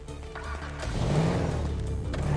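A car engine drones as the car cruises down a city street in the video game GTA 5. The noise is low and steady and swells a little midway, holding at a moderate level.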